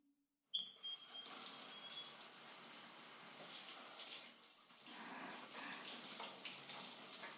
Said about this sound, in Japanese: じゃあさっきついたオイル流しちゃいますね。